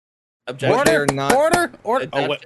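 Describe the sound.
Several sharp gavel knocks come in quick, irregular succession, mixed in with people talking.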